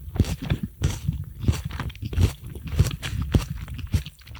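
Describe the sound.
Crunching of a rice cake spread with tomato paste, with many irregular crisp bites and chewing sounds at a fairly low level and no talk.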